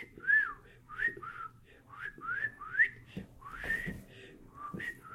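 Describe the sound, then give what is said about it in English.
A person whistles a run of short, clear notes to catch a crying baby's attention. The notes come one after another as swooping chirps, fairly faint, with brief gaps between them and no speech. “So I started whistling. I would go, I did whistle pretty good in those days. I go,”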